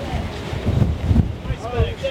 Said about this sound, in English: there is no way I will be able to get anything in this wind